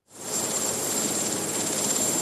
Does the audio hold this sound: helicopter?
yes